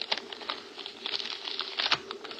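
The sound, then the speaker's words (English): Paper crinkles and rustles as a wrapped photograph is unwrapped, a quick run of light, crisp crackles and taps. “It's just her photograph. Here, let me unwrap it.”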